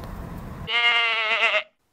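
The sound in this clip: A goat gives a single loud bleat lasting about a second, with a wavering, nasal tone, after a short stretch of low background rumble.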